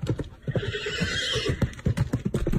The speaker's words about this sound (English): Her lovable horse Fiorello? What a long, treacherous road they ride.